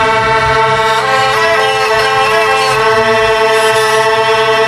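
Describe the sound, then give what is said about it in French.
Hurdy-gurdy, with strings bowed by a turning wheel, plays a steady, buzzing drone that never stops while shifting melody notes move above it. The tone is loud, dense and reedy, with no talk. “Une vielle à roue, c'est un instrument qui est assez atypique, puisqu'il associe les cordes comme le violon et ensuite, c'est-à-dire ce sont des cordes comme le violon qui sont frottées, mais là c'est frotté par une roue.”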